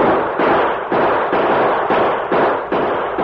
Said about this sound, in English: All right, driver. Turn around and start back to Stockton with the prisoners as soon as we fire some shots into the air. Right. Use your guns, men. Make it sound like a short battle.